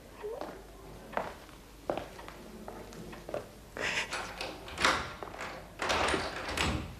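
A door is being locked in a house full of furniture: a run of irregular knocks, clicks and scraping thuds that grow louder and denser toward the end.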